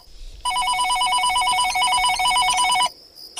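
A telephone rings in a single long, loud warbling trill with no voices, then cuts off abruptly.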